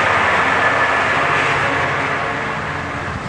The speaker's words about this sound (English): There at the end is more locomotive-y kind of a thing. The, you know, the engine.